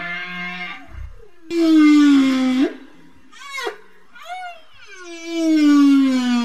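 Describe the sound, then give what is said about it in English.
Wild orcas call to each other in a series of loud, tonal squeals and whistles, some gliding downward in pitch. Brief gaps fall between several drawn-out calls, with one short, higher burst partway through. “That is the sound of orcas in the wild calling to each other.”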